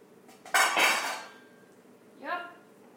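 A spoon clinks against pots on a stove while brown rice cooks: two metallic strikes, the first louder with a long ringing decay, the second a softer, resonant clang.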